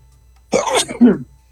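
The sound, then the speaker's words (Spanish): A single human sneeze breaks into otherwise quiet surroundings. It is a short two-part burst: a breathy onset, then a sharper, louder release, and then silence. “Una disculpa, intenté por más que lo intenté, no logré evitar ese estornudo.”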